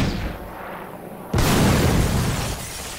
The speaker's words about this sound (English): Ooh, an M1 rocket launcher. You don't want to do that. I sure do.